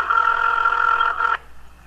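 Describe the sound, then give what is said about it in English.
A phone ringtone sounds as one steady, buzzy electronic tone, loud and unbroken for over a second before cutting off abruptly into quiet. “I like how this ringtone sounds like someone throwing up.”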